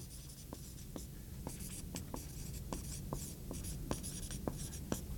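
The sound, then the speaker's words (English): Faint scratching of notes being written on a board, many short strokes and scrapes in irregular bursts, heard alone without talk. “There's another, I'm going to write these up.”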